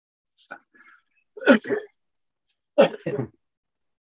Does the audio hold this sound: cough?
yes